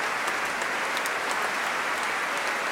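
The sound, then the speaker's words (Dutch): An audience applauds after a performance of French sacred baroque music, Lalande's Dies Irae, while calling for an encore. The clapping is dense and steady, a continuous even wash at a constant level throughout. “wil natuurlijk heel graag een toegift. En terecht. Groot applaus.”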